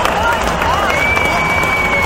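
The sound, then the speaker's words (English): Crowd roaring at a baseball stadium as a two-run home run goes down the left field line; a loud, steady wall of cheering holds throughout, with a thin whistling tone gliding above it. “That's the sound of Albert Pujols hitting a two-run home run down the left field line.”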